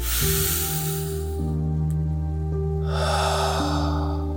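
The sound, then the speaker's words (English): Deep breathing during a guided visualization, two long, airy breaths separated by a short pause, heard over a steady sustained tonal background. “All right, so I want you to breathe in with me, and we're going to do a short visualization. And out. And again.”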